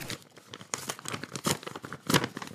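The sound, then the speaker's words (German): Paper tears and crinkles as an envelope is ripped open at a mock award announcement. Uneven rustling bursts build to a louder tear near the end, with no voices. “Wieder wird ein Umschlag geöffnet, wieder steigt die Spannung ins Unermessliche.”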